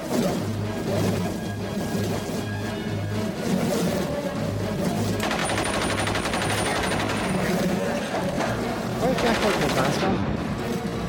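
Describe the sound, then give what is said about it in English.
Sustained loud gunfire as someone shoots at a bug, with dense bursts of rapid shots and crashing impacts running almost without a break, and a steady hum underneath. “Why is he shooting at it? I thought they wanted a live bug.”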